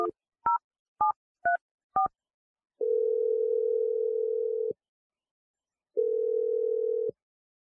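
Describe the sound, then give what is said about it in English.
A telephone being dialed: five short two-tone keypad beeps in quick succession, followed by two long steady tones separated by a pause, with no voices. “I'm going to dial Alana's number right now.”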